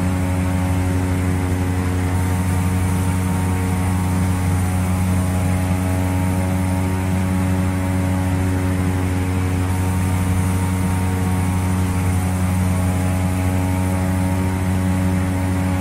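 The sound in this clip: Aircraft engine at takeoff in a flight simulator video game, a loud steady drone that holds constant throughout with no change in pitch.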